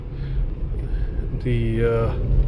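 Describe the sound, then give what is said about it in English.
Van engine running loud while stuck in M1 instead of drive, a steady low drone throughout with a voice speaking over it. “The van was stuck in M1 instead of drive. That's why it's been loud.”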